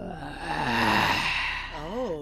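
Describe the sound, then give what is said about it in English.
A voice imitates an ungodly groaning sound with a drawn-out, moaning tone that swells and then fades. It ends in a wavering moan that rises and falls in pitch. “made an ungodly groaning sound.”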